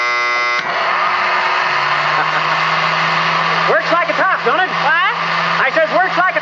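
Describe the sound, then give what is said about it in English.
An old electric razor, plugged into a wall socket, with honed blades, oiled and regeared, runs with a loud, steady buzzing hum and a low drone beneath it, while voices talk over it in the second half. “My old electric razor. I honed the blades and oiled it and put the gears in different, and it works like a charm.”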